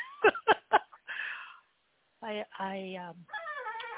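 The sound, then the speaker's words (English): Pet cat meowing, with a couple of drawn-out, tonal meows mixed in among stretches of human speech. “Do I hear a kitty in the background?”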